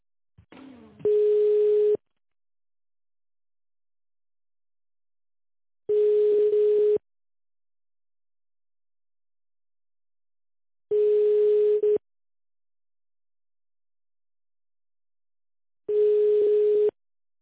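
Telephone ringback tone while a call is transferred: four steady, single-pitched tones of about a second each, separated by roughly four seconds of silence, with a short burst of noise just before the first.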